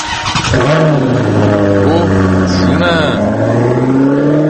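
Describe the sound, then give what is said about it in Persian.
An Iranian-made car engine starts and accelerates away, a loud, continuous motor drone whose pitch dips and climbs as the revs change. “اینم صدای استارت و ساخت ایران بعد از دوم خرداد 76 بود. بله ایران داشت با همین سرعت ساخته میشد، دقیقا با همین سرعت که شنیدید این ماشین رفت، یعنی پاشو گذاشته بود رو گاز داشت میرفت.”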